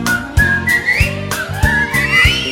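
Whistled melody in an Italian pop-rock song, a high wavering tone that glides upward over a steady beat of heavy low thumps and band accompaniment.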